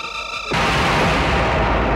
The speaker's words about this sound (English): The craft explodes.